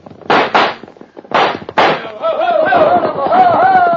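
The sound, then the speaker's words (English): Gunfire in a radio drama shootout: four loud, sharp shots in two quick pairs, then a sustained wavering tone trails off. “All right, open up, Hunk. Gun him down.”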